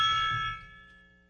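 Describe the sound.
Gong rings out with a metallic, shimmering tone of several sustained partials, fairly quiet and decaying steadily with no other sound.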